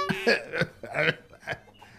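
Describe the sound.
Several short, voiced, throaty coughs come in quick succession, performed by a man playing an elderly character in a comic skit, with brief pauses between the bursts.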